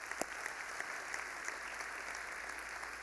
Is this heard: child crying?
no